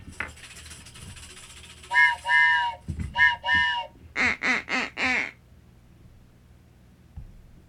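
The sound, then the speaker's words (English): Duck whistle quacks, nasal and reedy, come first in two pairs and then in a quicker run of four, loud against a quiet background. “Like, me with duck whistles.”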